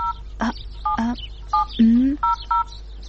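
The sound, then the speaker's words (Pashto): Dialing a telephone: several short two-tone keypad beeps in a loose rhythm, mixed with brief squawking sounds of lower pitch. “منم دې جمیله، ته صبر چې اوس فاطمې ته زنګ ووهم.”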